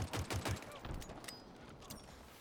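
Video game gunfire in an oddball multiplayer match. A rapid burst of shots fills the first second, then trails into a dense, noisy wash of weapon fire.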